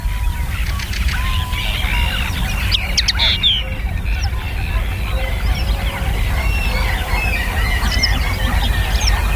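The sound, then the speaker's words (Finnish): A common linnet sings a busy twittering stream of rapid chirps and short trills that runs without pause, with other bird calls mixed in. “vuoden viimeinen luontoääni on Hemppo. Ja on siellä kaupan päällisiksi taustalla myös esimerkiksi käki.”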